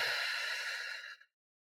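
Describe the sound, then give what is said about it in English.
A single long breath from a person doing a guided breathing exercise, a breathy whoosh lasting about a second before it cuts to silence. “So we're going to breathe in and out,”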